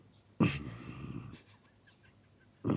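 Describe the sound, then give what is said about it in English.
A man growls to himself, a rough, low, breathy vocal growl lasting about a second, followed by quiet and the start of another breathy sound at the very end. “sort of growled to myself”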